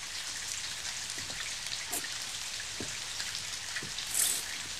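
Steady rain falling, a constant even hiss with scattered faint drop taps throughout, and no voices.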